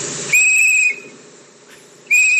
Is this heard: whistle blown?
yes